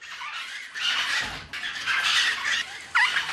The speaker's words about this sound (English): That's the sound of the fluffy little flamingos abandoned by their parents.